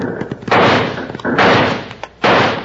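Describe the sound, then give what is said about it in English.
Six-gun revolver shots ring out in a Western shootout as a few loud, booming blasts with long noisy tails, preceded by some smaller sharp cracks. “Unholster those six guns and let's turn their heads.”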